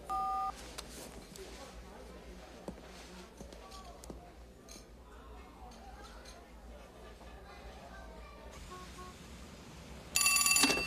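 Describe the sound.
Telephone ringing in a dubbed film scene: a short electronic tone opens, and a louder multi-tone ring sounds near the end, with quiet voices and background noise in between.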